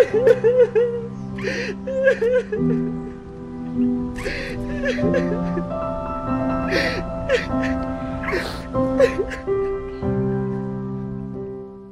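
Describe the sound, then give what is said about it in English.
A man sobs at the end of a film scene while held in a woman's arms: shaky, broken whimpers and gasping breaths repeat over a steady tonal backing. “So, Lucas Hedges, at the end of that scene, you are sobbing in her arms.”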